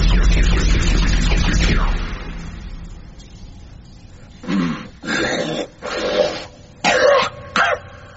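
Raspy throat clearing and coughing from an unseen creature in a dark ship's hold: a long harsh rasp, then five short rough coughs after a pause.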